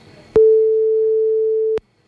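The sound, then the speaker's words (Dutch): A telephone ringback tone on an outgoing call: one long, steady, mid-pitched beep of about a second and a half. It sounds loud and clean against a faint background. “Oh, de telefoon gaat weer over. Sorry, verkeerde knopje, maar hij gaat nog over, hè? Hij gaat nou over.”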